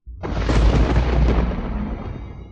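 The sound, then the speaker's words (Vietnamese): Thunder rumbles continuously across the sky in a storm, a loud, deep, dense roar that starts abruptly and rolls on for a couple of seconds, easing slightly toward the end, with no talk over it. “Ngay sau đó, bầu trời truyền ra âm thanh sấm chớp liên tục dày đặc.”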